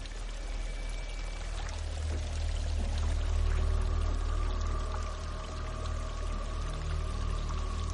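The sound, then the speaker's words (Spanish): Water churns as a creature submerges in knee-deep water in a tense horror-film scene, a continuous rushing, pouring wash over a low rumble that swells slightly midway and carries on for about eight seconds without voices. “El monstruo se sumerge en el agua.”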